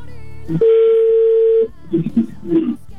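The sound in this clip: A telephone rings on an outgoing call to a listener during a live call-in: one steady, mid-pitched tone lasting about a second, with people talking before and after it.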